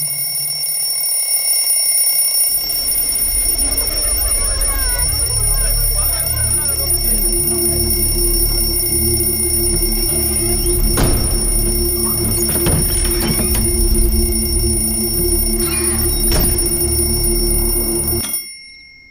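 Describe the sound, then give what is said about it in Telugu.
A continuous high-pitched alarm tone rings steadily for about eighteen seconds over low rumbling sounds, then stops. It is an alarm that goes off every night at exactly 8 o'clock. “రోజు రాత్రి సరిగ్గా 8 గంటలకి ఒక alarm మోగుతుంది.”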